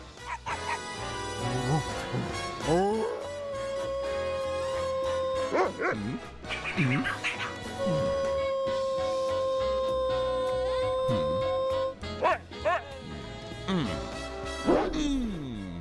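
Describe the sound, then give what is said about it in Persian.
Dogs bark in a barking contest, with bursts of barks, yips and whimpers scattered over long, steady musical tones, and voices mixed in. “خب حضار محترم، سکاتونو برای مسابقه به صف کنید. من میخوایم بهترین پارس قهرمانانه رو بشنویم.”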